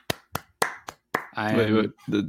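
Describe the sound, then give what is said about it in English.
Five sharp hand claps from one person, evenly spaced about a quarter second apart, are followed by a voice speaking. “that deserves so much more than just me clapping.”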